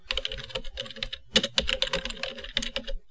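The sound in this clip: Rapid, irregular keystrokes on a computer keyboard as a website search is typed, coming in dense bursts with a brief pause partway through.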